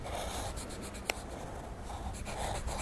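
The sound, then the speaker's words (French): Drawing on paper makes soft, scratchy strokes in repeated short bursts, faint throughout, with one crisp tap near the middle. “Quand je dessine, je ne suis plus seule. Papa, maman, je vous dessine. Vous me tenez compagnie. Mon lit, je te dessine.”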